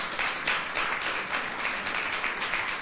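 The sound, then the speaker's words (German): Audience applause at a church service welcoming newcomers. It is a thick, continuous patter of many hands, loud and level from start to finish, with no voices on top. “Bitte gebt ihnen mal einen Applaus.”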